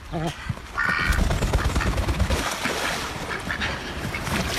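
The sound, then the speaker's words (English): A pair of pet ducks quack in a few short nasal calls early on, set against a dense, noisy, rustling background. “That's the sound of Pid and Pod, and they are ducks.”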